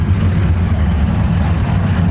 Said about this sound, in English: just outside our truck here is a giant cylinder where steam is billowing out at an incredible volume.